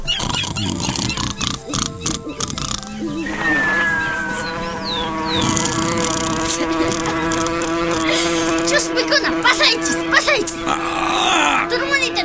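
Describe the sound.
A fly buzzes in a sustained, droning whine with layered tones that holds through the whole twelve seconds, mixed with other short noises.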